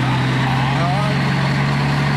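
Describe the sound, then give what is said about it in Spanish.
Steady idling drone of a Dyna truck engine fitted in a vehicle, a low, even hum with constant rumble, with speech running over it. “Este tiene un motor de Thornton. Tiene un motor de camión Dyna.”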